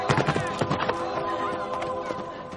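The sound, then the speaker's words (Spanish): Hoofbeats and a whinny as children ride horses away from a village under attack. The clattering hooves are loud and busy at first, then thin out, over a steady tonal background. “¡Rápido! Los niños se alejan a caballo.”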